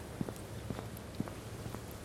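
Footsteps of someone walking round the Bournville Chocolate Factory, a few soft, evenly paced steps over a constant low hiss.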